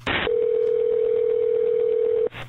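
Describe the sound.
A telephone tone holds steady and unbroken for about two seconds during a call to 911. A short burst of noise comes before it, and it stops abruptly.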